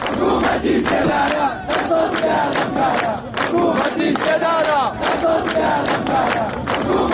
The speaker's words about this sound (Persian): شرکت کنندگان در مراسم روز شنبه شعار دادند: حکومت اعدام، دست از جنایت بردار.